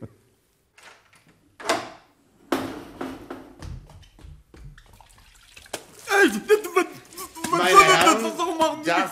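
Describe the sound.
A door is opened quietly: a few soft clicks and handling knocks, then low muffled movement. Voices take over afterwards.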